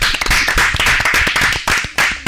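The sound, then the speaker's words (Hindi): Applause for a child's patriotic poem recital: a crowd claps loudly in quick, dense, overlapping bursts that stay lively for the whole clip. “वाह, बहुत बढ़िया। जोरदार तालियां हो अनिका के लिए।”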